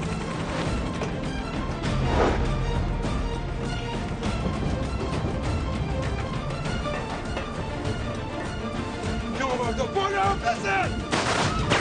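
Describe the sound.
Gunfire during a tense armed confrontation in which someone is hit. Loud shots and crashes are buried in a dense, continuous wash of loud noise that lasts throughout.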